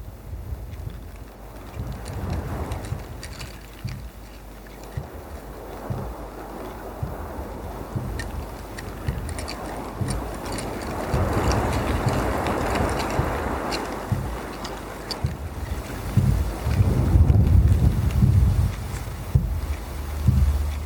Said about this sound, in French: le jardin et le vent sur les arbres, les branches, les feuilles tombent.